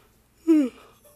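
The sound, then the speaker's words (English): A short human yawn, a voiced, breathy swell with a gently falling tone that fades into a faint airy tail, heard on its own without speech. “I'm sorry, I'm yawning.”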